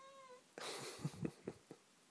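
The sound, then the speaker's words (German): A hungry cat meowing in complaint, a faint, drawn-out tonal meow at the start followed by soft scuffling and a few light knocks, all quiet. “Ja, das ist meine Katze, die sich beschwert.”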